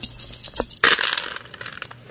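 Five dice are rolled in a tabletop role-playing game, landing with one sharp clattering burst followed by many quick rattling clicks as they tumble and settle.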